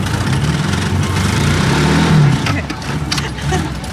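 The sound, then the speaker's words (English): A car engine stalls and labours as a learner driver works the clutch: a steady, low, mid-pitched drone that surges and dips, with voices faintly underneath. “Why does it do that? Well, it does that because you got to, like, let the clutch out and push the gas in at the same time.”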